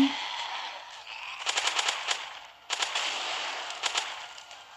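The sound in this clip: Sniper rifle gunfire in the video game Roblox: several bursts of sharp, clustered cracks stand out over a steady hiss of game noise, with quieter stretches between them.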